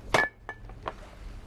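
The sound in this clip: A cup and tea bag are handled while making tea: one sharp clink, then two softer light taps. The sounds are brief and sparse, with quiet gaps between them.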